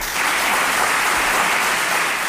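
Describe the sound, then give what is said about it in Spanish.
Applause from family and friends at a woman's first public event in her hometown in 25 years. The clapping is steady and dense throughout, with no voices or pauses. “Un cariño que le llegaba a Nevenka Fernández constantemente en forma de aplausos.”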